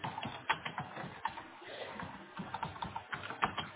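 Fingers type a request on a computer keyboard, giving a quiet, irregular run of quick key taps with a few sharper strikes and brief pauses.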